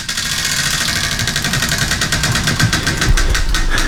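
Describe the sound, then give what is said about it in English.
A prize wheel spins in a studio, giving off a fast, even stream of sharp clicks over a constant whirring rumble. “We have a wheel here in the studio. Listen.”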